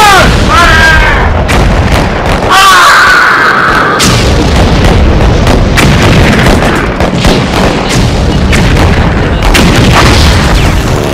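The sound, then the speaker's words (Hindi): Rifle fire from soldiers in a bunker battle rattles loudly and continuously, with dense overlapping shots and booming bursts throughout. “तो संभालो अपनी बंदूक और एक बार फिर मौत बनकर टूट पड़ो इन चीनियों पर। जय मां काली, जय मां काली, फायर।”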